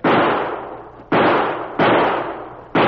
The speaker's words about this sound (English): He shot the gun right out of my hand.